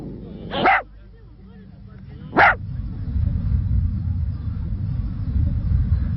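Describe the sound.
Two sharp, brief dog barks a couple of seconds apart over a steady low rumbling background.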